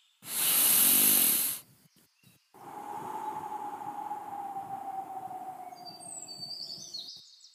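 One long, loud, airy deep breath drawn in at the start. Quiet follows, then a steady low hum with faint bird chirps entering near the end.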